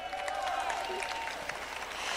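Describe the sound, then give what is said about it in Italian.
Audience applause at a Pride event in Brescia, a soft, even patter of clapping that carries on steadily, with a faint voice just audible beneath it. “Un grande applauso ancora.”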